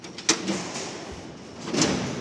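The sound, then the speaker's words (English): Two sharp metallic clanks of prison cell doors released by a lever mechanism, separated by a short, quiet stretch with a faint background hum and no voices. “If I want to open up three cells, I've got number two, hit the clutch on number four, and number six, and pull the hammer across the cells,”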